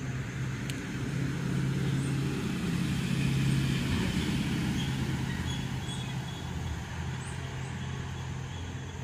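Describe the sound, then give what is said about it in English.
A car drives past on an outdoor street, its low rumbling road noise swelling gradually to a peak and then easing away slowly, with no talking over it. “Sorry, guys, just hold on a second. This car is going by.”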